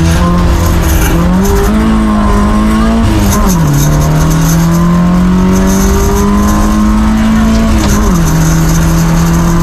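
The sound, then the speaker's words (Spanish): Onboard sound of a race car with an 8-valve engine at the race start: a loud, steady engine roar whose revs climb and then drop sharply at a couple of gear changes, with a harsh, buzzing edge throughout. “Ahí tenemos la onboard del dorsal 99 a punto de tomar salida. Vamos a pinchar sonido, venga.”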